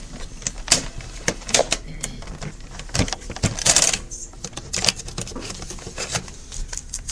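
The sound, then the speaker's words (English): Handling of a cassette tape as it is turned over in a recorder: many small clicks, taps and plastic rattles in an irregular, busy patter. “Well, let me turn the tape over here.”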